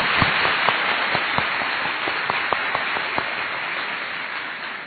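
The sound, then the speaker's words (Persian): Seminar audience clapping, a dense, steady wash of applause with several sharper individual claps standing out, muffled and continuous from start to finish. “برای خودتون دست بزنه آفرین آفرین”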